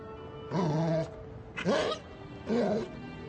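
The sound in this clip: A dog vocalizing in three separate, drawn-out whining, howl-like calls with wavering pitch, fairly faint and heard alone with short pauses between them.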